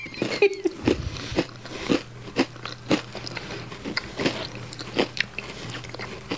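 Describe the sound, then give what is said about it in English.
Biting and chewing on a Reese's treat, a run of crisp crunches and wet mouth sounds at an irregular pace, fairly faint over a low steady hum. “I want to tear it apart and eat it, but I shouldn't, huh? You can do whatever you want. There's no wrong way to eat an Oreo. No, that's Reese's. There's no wrong way to eat a Reese's.”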